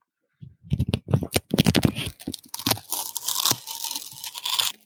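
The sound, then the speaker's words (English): Duct tape being pulled and torn off the roll, a run of sharp crackling bursts followed by a longer, steady rasping rip that fades in and out. “Let's tear off a piece of this duct tape.”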